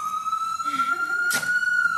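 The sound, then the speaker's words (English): A police siren holds a loud, steady, high tone for the full two seconds, with a brief burst of hiss partway through. “Whoop, whoop. That's the sound of the police. That's the sound of the police.”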